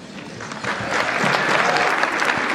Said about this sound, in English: And a special thanks to the 42% of you actually applauded.